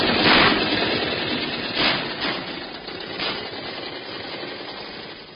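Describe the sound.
A car engine revs and runs as the car drives off into the desert in Libya. A loud rough burst opens it, a few surges follow, and the rumble then steadily fades.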